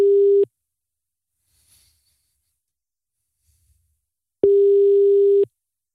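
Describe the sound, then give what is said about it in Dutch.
Ringback tone on an outgoing call to a contest winner: two steady, mid-pitched buzzing rings, the first clipped short at the start and the second about a second long, with near silence between them. “Laten we eventjes bellen met de winnaar. Hij gaat over gelukkig, dat is fijn.”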